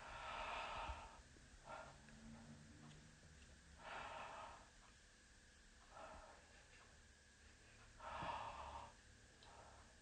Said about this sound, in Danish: Og så trækker du vejret frem og tilbage med åben mund, mens jeg lytter på her på ryggen.